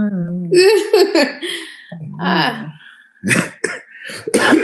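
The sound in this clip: A person coughing up a little phlegm, a few harsh, rough coughs and throat-clearing bursts in uneven succession, loud against otherwise quiet moments.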